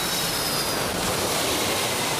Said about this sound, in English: Aviation Quest CC 101, cleared for takeoff, 27 left. V1, rotate.